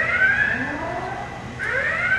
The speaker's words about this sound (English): The siren warns to stay clear. The system is charging up